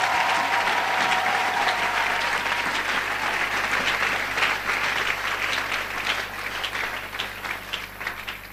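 Church audience clapping to acclaim the Lord during worship, a dense, steady wash of applause that thins slightly toward the end.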